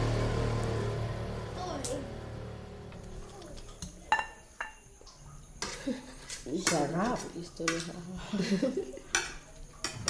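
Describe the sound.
A knife chops a tomato amid kitchen clatter: a few sharp knocks mix with clinking utensils and dishes, while voices talk over parts of it.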